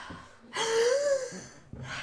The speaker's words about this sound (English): Hold on, I'm going to take a few deep breaths here.